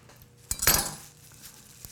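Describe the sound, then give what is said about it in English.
A knife is picked up in a kitchen while preparing parsley for garlic bread, giving one brief metallic clatter of cutlery that quickly fades into quiet background noise. “Grab a knife.”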